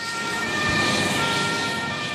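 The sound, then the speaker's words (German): An ambulance siren sounds as the rescue vehicle drives off during an emergency exercise in front of a stadium, with steady high tones held over a low road-vehicle rumble at an even level. “Auf dem Platz vor der Allianz Arena fährt der nächste Rettungswagen ab”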